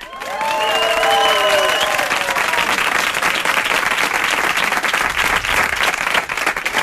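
Loud, steady applause from a large crowd of people who took part in a penthouse auction, with some cheering near the start, sustained without a break through the whole clip.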